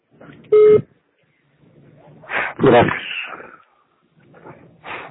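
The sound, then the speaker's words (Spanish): A single loud electronic beep from a voicemail system marks the start of recording. It is short and steady-pitched and comes after quiet background hiss. Voices follow afterward. “Por favor, grabe su mensaje después del tono.”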